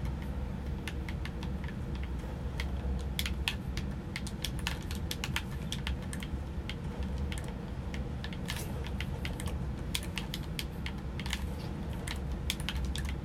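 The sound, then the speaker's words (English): Game controller buttons clicking: many rapid, irregular plastic clicks, faint and sharp, running steadily over a constant low rumble with no talking. “Sorry if you hear my controller in the background.”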